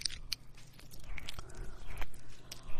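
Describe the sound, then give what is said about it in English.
Mouth sounds of someone chewing on a microphone for ASMR: a quiet, irregular run of wet clicks, crunches and soft rustles, with no talk. “I'm just chewing on a microphone.”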